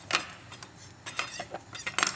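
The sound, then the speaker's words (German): A knife trims a thick stalk from a soft leaf being prepared for rolling in a kitchen. A few faint, quick clicks and scrapes of the blade come in short uneven bursts. “Hier habe ich extra so einen dicken Strunk dran gelassen. Der muss auf jeden Fall weg, sonst kannst du nicht gut rollen.”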